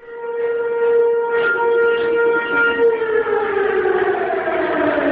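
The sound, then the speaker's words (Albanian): Civil defense alarm sirens wail in northern Kosovo, summoning Serb citizens to protest. The loud, sustained, layered tones hold steady for several seconds, then sag slightly lower in pitch near the end. “Që nga orët e hershme të mëngjesit të sotëm në veriun e Kosovës janë dëgjuar sirenat alarmuese përmes të cilave janë ftuar qytetarët serb që të protestojnë”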